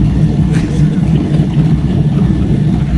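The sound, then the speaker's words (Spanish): Coffee grinder running with a loud, steady, low mechanical rumble that continues without a break. “Imagínese una ciudad con este sonido lo en los coches huele. Eléctricos para evitar atropellos y además, como bien dice, con un aroma. ¿Cómo se llama esto? Esto es un molinillo de café.”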